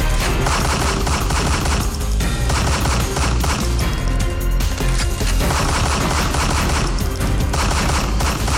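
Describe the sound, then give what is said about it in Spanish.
Gunfire from an armed man opening fire on people relaxing and drinking, heard as a loud, dense, continuous barrage of rapid shots with no pause. “un hombre armado irrumpió en la paz, en la felicidad, en la tranquilidad del lugar y abrió fuego, raquitinquintán, quintán.”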